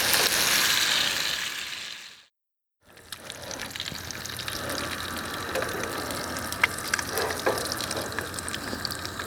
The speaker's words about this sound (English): And breakfast is cooking.